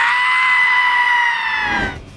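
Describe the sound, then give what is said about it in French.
A person screams in a shrill, drawn-out voice that holds steady and loud for nearly two seconds, then dips in pitch and breaks off abruptly. The cry has a bleating, strained quality. “Non, je t'en prie, tu hurles comme une gonzesse, fais un vrai cri !”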